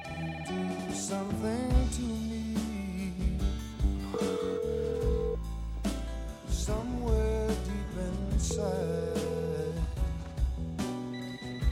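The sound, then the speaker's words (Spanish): A telephone rings in a film scene, bright ringing tones recurring again and again over a dense, steady background for the whole stretch. “Contesta el teléfono.”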